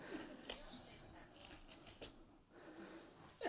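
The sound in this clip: Pages of a Bible are flipped to Psalm 51, making light papery rustles and quick ticking flicks beneath a person talking.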